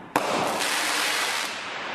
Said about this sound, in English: That's huge. That's like a real firework. Yeah, you get 8 shots.